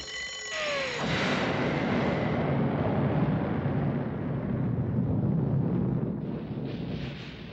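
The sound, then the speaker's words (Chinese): A bomb explodes in an old animated cartoon: a few short descending whistle tones lead into a sudden, loud roaring blast of dense noise that holds for several seconds before easing slightly. “嗰个系炸弹嚟。”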